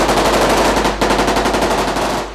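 Machine-gun fire in a shootout between soldiers and terrorists during a school siege: loud, rapid, continuous automatic bursts, a fast rattling rhythm with a momentary break near the middle.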